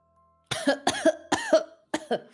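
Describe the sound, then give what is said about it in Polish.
A woman coughs and chokes after swallowing water, in four harsh, raspy bursts, some of them doubled, separated by short gasping gaps. “Zaczyna się krztusić, kaszleć, ale jest przytomna.”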